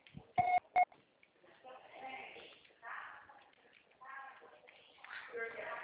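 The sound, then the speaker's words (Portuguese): Two short, sharp electronic beeps on a telephone line mark the start of a voicemail recording. A voice talking follows the beeps. “Grave seu recado, que você só será tarifado após o sinal.”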